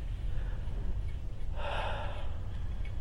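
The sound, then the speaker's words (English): One deep breath during a meditation exercise, a soft, breathy rush of air that swells and fades over a quiet low hum, with no talk. “So take a couple deep breaths.”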